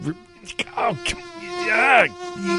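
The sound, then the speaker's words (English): Buzzing mosquitoes give a loud, high whine with a steady drone underneath. The pitch wavers and swoops upward near the end, with a few sharp clicks between. “Insect Repellent Day. You're going to need it if there's mosquitoes around.”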